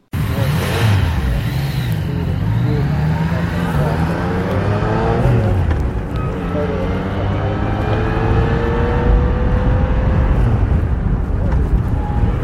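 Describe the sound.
Motorcycle engine revving, the third of three bikes being compared, its pitch climbing and dropping repeatedly in a steady, continuous roar.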